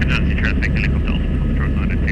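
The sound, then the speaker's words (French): A helicopter flies with its door slid open over forest in eastern DR Congo, producing a steady, loud low engine and rotor drone. Speech runs over the drone throughout. “Caleb Weiss fait coulisser la porte de l'hélicoptère pour actionner le haut-parleur.”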